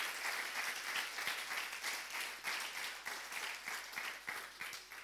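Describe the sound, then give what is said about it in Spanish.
An audience applauds at the close of a church service: soft, steady, many-handed clapping that swells and eases in gentle waves throughout. “¿Cuánto le dan gloria a Dios y le dan un aplauso si lo crees?”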